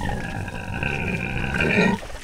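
A female pig grunts while her back is scratched, letting out one continuous, low, rough groaning grunt for about two seconds before it cuts off.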